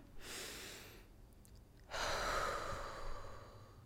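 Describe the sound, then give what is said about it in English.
A deep breath in and out: a rushing inhale of about a second, a short pause, then a longer, louder, airy exhale that slowly fades. “A deep breath in and a deep breath out. Let's do it all. I'll do it right now with you.”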